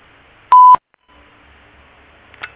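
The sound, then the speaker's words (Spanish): A voicemail beep sounds once before message recording: a short, steady mid-pitched tone, followed by quiet line hiss and a faint click near the end. “Si desea, deje tu mensaje en la casilla de voz. Después del tono, grabe su mensaje.”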